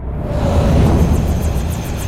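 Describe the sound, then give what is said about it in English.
A helicopter powers up at an army airfield, a loud, broad turbine roar with a faint rhythmic swish of rotor blades repeating steadily above it. “Behind him, a helicopter was powering up.”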